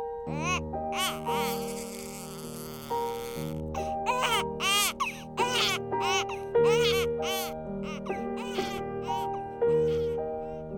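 Newborn baby crying at birth in a hospital, rising and falling wails layered over a gentle chiming lullaby melody played in regular note steps throughout.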